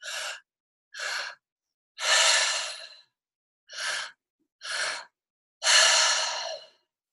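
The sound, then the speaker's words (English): Mouth breathing in a two-part pattern: a short inhale into the belly and a second into the chest, then a longer, airy sighing exhale. The cycle repeats twice with clear silent gaps and no talk. “So it's 1 in the belly, 1 in the chest, and then exhale. So it's like a 2-part inhale and then an exhale. And so it sounds like this”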